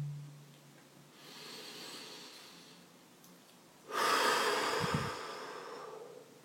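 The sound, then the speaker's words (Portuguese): Deep breathing by one person: a slow, airy inhale, then a louder, longer exhale that swells and fades. The sound is soft and close, with no talk over it. “Respirar. Respirar profundamente.”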